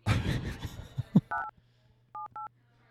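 Touch-tone keypad beeps from a telephone number being dialed: three short, clear tones, the last two in quick succession, following a brief noisy stretch over a low steady hum.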